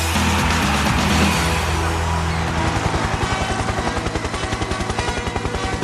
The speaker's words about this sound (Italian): Ancora il rumore degli elicotteri.